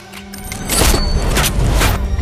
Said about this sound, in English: Aim it and pull the trigger.